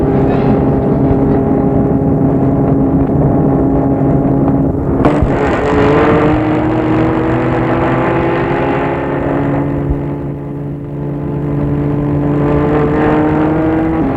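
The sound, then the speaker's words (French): A car engine hums steadily, then after a sharp clunk its tone climbs and holds as the car pulls away, the motor running alone and fairly loud throughout. “Et il entre dans la voiture. Et Fernand démarre.”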